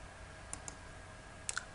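Mouse clicks in a Windows C# application while setting up a new database connection: four sharp, light clicks in two quick pairs, a short pause between the pairs, over faint background hiss.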